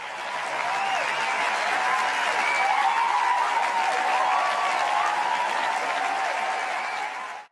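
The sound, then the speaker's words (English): Steady audience applause welcoming the host of a hip hop and self-help show in San Diego, an unbroken wash of clapping lasting about seven seconds and cutting off abruptly at the end. “Give it up for the host with the most.”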